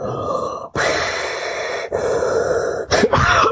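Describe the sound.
A voice imitates Darth Vader's mechanical breathing with two long, loud hissing breaths, followed by rougher, grunting throat sounds.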